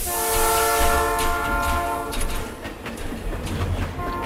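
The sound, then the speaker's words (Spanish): A train pulls out of a station, its horn holding a steady tone for about two seconds over the continuous low rumble and clatter of the rolling cars, which carries on alone afterwards. “Uy, de nuevo el Chano se escapa en el primer tren que sale de la estación en dirección desconocida.”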